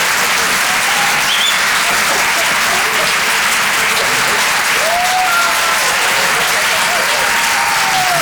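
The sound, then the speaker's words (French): Audience applause at a comedy club after a stand-up set: dense, steady clapping that fills the whole stretch at a loud, even level. “Faites du bruit, s'il vous plaît, pour Basile”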